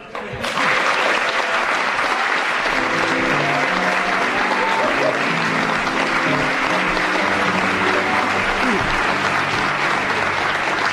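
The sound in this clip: Loud audience applause greets a celebrity guest on a stage game show. The clapping swells in within the first half second and then holds as a dense, steady wash until the end.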